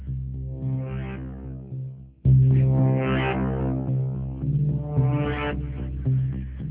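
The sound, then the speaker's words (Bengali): A train whistle blows in three long, deep, horn-like swells, each rising and fading, with no talk over it. “ভেতরে ঢুকতে ঢুকতেই ট্রেনের whistle বেজে উঠল।”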